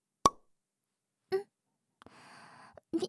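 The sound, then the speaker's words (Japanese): A sharp, loud pop of a cork pulled from a wine bottle, a single quick burst, then a few quieter sounds after a short pause. “びっくりした。ワイン開けるときってこんな感じなんだね。”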